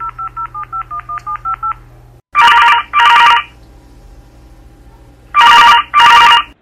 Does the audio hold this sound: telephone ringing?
yes

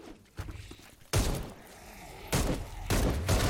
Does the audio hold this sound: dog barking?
no

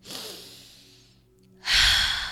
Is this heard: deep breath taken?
yes

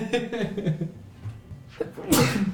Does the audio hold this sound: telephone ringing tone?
no

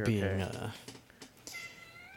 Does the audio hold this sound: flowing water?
no

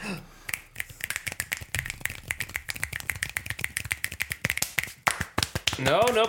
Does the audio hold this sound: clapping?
yes

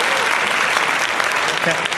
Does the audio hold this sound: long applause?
yes

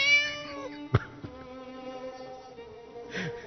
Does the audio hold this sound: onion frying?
no

